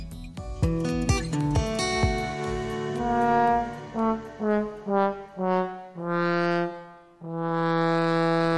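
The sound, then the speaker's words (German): A trombone from the Gürzenich Orchestra in Cologne plays a solo phrase, quick opening notes and then a run of short, separated brassy tones that ends in long, full, sustained notes. “Das, was ihr da gehört habt, das war eine Posaune. Vorgespielt vom Gürzenich-Orchester in Köln.”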